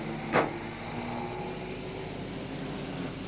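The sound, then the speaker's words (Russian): A clean mobile-cinema van pulls into a petrol station. A steady low engine hum runs throughout, with one short, sharp click near the start. “На заправку въезжает чистая машина кинопередвижки. Тормозит.”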